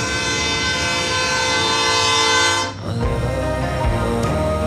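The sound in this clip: A train on a railway track beside a school's playing fields sounds a long, loud horn blast, which cuts off and gives way to the rumble and clatter of passing cars.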